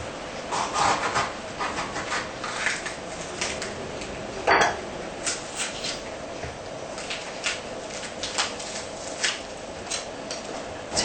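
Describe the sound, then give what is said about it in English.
A knife slices a seeded red pepper very thinly, making many short, crisp taps in a steady rhythm with one sharper knock partway through. No voices are heard. “For the red pepper, we don't have to grate it, I think. We just use the knife to slice very thin.”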